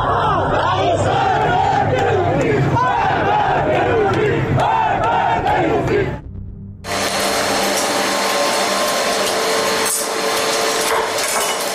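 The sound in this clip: A crowd protests in front of a police station over rising prices, with many voices chanting and shouting loudly together. The noise cuts out briefly partway through, then the massed crowd sound carries on.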